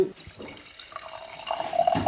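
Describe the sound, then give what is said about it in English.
Wine poured from a bottle into glasses gives a steady, fairly quiet liquid trickle and gurgle with no voices, the stream growing slightly fuller toward the end. “you've just poured us some wine. What are we drinking?”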